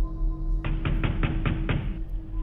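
Heavy pounding on a house door at night: a quick, even series of six loud thuds, each ringing briefly, over a steady low hum, then the hum alone continues.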